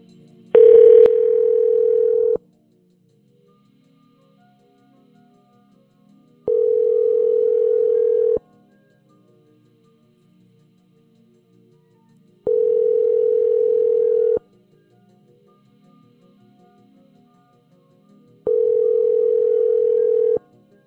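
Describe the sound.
Telephone ringback tone heard while placing a call: a brief, louder burst at the start, then four steady, mid-pitched tones of about two seconds each, separated by roughly four-second gaps of near silence.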